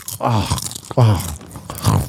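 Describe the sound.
A person eats, with wet chewing and biting mouth sounds between a few voiced hums of enjoyment, close and fairly loud.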